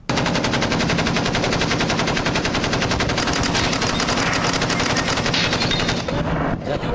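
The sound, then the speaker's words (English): Machine gun sound effect firing nonstop, a loud, rapid and even stream of shots running for about seven seconds without a break, with no talk over it. “We just have the machine gun running.”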